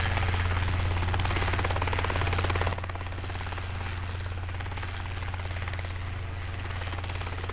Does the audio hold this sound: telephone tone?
no